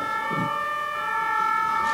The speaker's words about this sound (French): Si c'est une ambulance, ça va passer. Si c'est les pompiers, il vaut mieux sortir. C'était une ambulance.